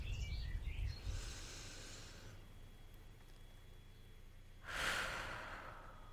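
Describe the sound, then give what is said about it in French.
A deep breath drawn in and let out, taken as a final pause in a room in L'Isle-sur-la-Sorgue: a soft, airy inhale, then after a quiet gap a fuller, louder exhale, with no talk. “J'inspire, expire une dernière fois et je vous invite à en faire de même.”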